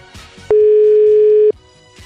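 A ringback tone from a telephone call that rings without connecting: one steady, loud electronic tone lasting about a second, heard alone.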